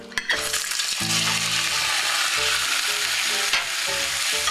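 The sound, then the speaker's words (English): Meat frying in a tablespoon of hot vegetable oil in a saucepan gives a loud, continuous crackling sizzle, with a brief sharp knock near the start and low clatters of stirring mixed in. “1 tablespoon, in the hot saucepan. And then I'm going to add my meat so that it'll, as soon as it gets the color.”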